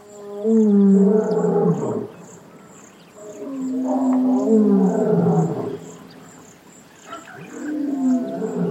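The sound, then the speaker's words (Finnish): Deep, fierce roars of a large wild animal carry from many kilometres away: three long, rumbling calls with quiet pauses between, the last cut off. A steady high chirping of insects runs underneath. “Tuo hurja karjaisu kantautui nimittäin monen kilometrin päästä.”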